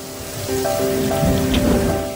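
Steady rain falling in a dense, continuous hiss with a slight swell in the middle, while faint sustained tones sit quietly beneath it and no voices are heard.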